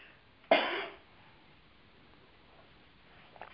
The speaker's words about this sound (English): I've got a little tickle in my throat.